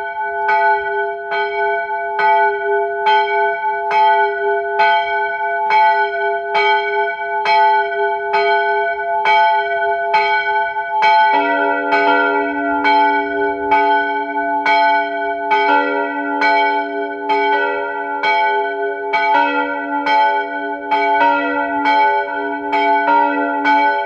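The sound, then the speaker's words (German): Noon bells of the Protestant parish church in Unterhaus near Seeboden in Carinthia ring in steady, evenly spaced strokes. A deeper bell joins partway through, and the bells build into a fuller, overlapping peal. “Es ist 12 Uhr. Sie hören die Glocken der evangelischen Pfarrkirche in Unterhaus bei Seeboden in Kärnten.”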